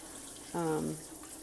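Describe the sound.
Water runs slowly from a faucet turned to a very low flow, a soft steady hiss without splashing, with a brief tonal sound rising over it midway.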